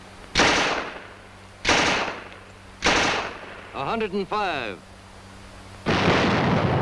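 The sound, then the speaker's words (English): Tommy gun fire comes in four loud, sustained automatic bursts spaced over several seconds. A short tonal shout breaks in between the third and fourth bursts. “It's your bodyguard and your battering ram. It's your best friend. A Tommy gun.”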